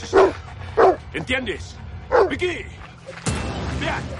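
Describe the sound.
A guard dog barks as it is let loose to chase a fleeing man. Several loud, yelping barks come in quick uneven bursts, followed by a rush of noise.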